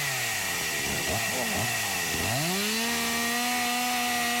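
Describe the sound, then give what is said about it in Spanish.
Chainsaws run outdoors in cold weather, cutting a line. A loud, continuous engine drone dips and revs a few times, then climbs into a steady high whine that holds to the end. “Prendieron las motosierras, mirá eso, mirá. Salieron a cortar línea con este frío, mirá.”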